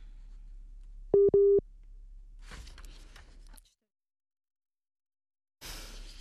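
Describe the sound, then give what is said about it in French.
Telephone busy tone on a call line that has dropped: two short, steady, mid-pitched beeps, then a stretch of rough line noise and dead silence before more noise returns. “Monsieur Tabaro, est-ce que vous êtes encore avec nous? Je crois que malheureusement, la ligne a droppé.”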